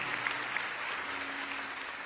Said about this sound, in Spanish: Fuertes aplausos para Dios.